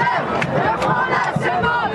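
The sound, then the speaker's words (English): A crowd of students protesting in a Paris street, in Bastille Square, demanding more money for schools: a dense, loud roar of many shouting voices that stays steady throughout. “Thousands of protesters are here in Bastille Square, where the French Revolution began”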